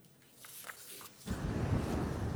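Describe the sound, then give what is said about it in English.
Footsteps on dry, dusty farm soil on a drought-stricken East Sussex farm. A few faint scuffs come first, then a steady, louder, powdery crunch and rustle that carries on to the end. “Each powdery footstep tells the story of a landscape in distress. This is just dust on dust,”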